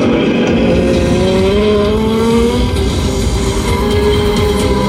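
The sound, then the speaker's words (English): Loud, unbroken engine roar of a Norton motorcycle racing to beat a course record, its harmonic whine climbing gradually in pitch as it holds speed, with no talk over it. “Alan Towns on the Norton to beat the course record and win the double”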